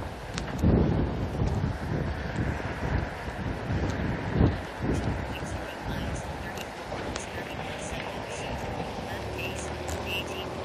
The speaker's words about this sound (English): The wind has kept me moving right along.